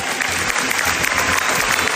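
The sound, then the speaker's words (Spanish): Sustained ovation from an audience after a film premiere in Venice, dense and continuous clapping that blends into an even roar with no pauses. “con una ovación de más de 15 minutos tras estrenarse su peli con Bardem. Un cuarto de hora de aplausos para...”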